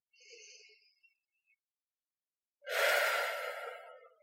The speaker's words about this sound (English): Okay, so if you're listening here now, can we do a weird thing? Can we just take a breath?